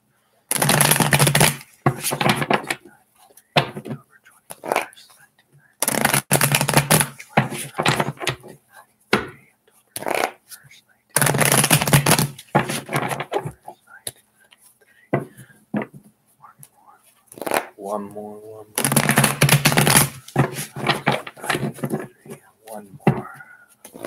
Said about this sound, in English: Three more shuffles.